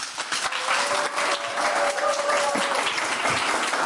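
A studio audience claps their hands in a dense, steady patter that fills the whole stretch at an even level, with no voices rising above it.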